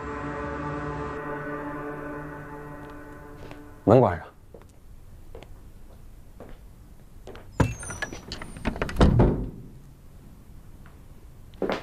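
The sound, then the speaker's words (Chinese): A door closes with a few sharp knocks and clatters. They come after a steady held tone that fades out partway through. “门关上。”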